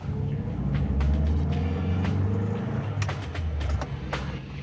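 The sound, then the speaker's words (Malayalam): A car drives along with a steady, low engine and road rumble that stays fairly even and quiet throughout, with a few faint ticks over it and no talking. “Drive ചെയ്യുമ്പോൾ സംസാരിക്കുന്നത് എനിക്കിഷ്ടമല്ല. നിന്നോട് ആരാ ഇപ്പൊ drive ചെയ്യാൻ പറഞ്ഞത്? അടിച്ച് പിറ്റായിട്ട് നീ ഇപ്പൊ കാർ ഓടിക്കണ്ട.”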